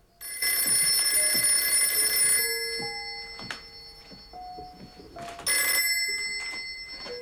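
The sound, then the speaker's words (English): A telephone bell rings in a bedroom in two long, loud bursts separated by a quieter pause, with a few soft knocks in between. “He's dozing in the chair when he's woken by the telephone. Woozily, he gets to his feet and goes inside. He goes into the bedroom to answer the phone.”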